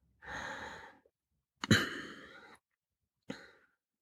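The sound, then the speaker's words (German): Soft breathing during a short guided meditation: three quiet breaths, a long even inhale, then a louder, sharper breath, then a brief final one, with no talking. “Lass uns gemeinsam einatmen kurz.”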